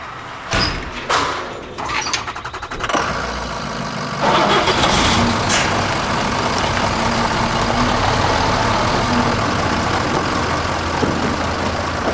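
A van engine starts up and drives off: a few sharp clunks first, then a loud, steady engine roar that carries on to the end.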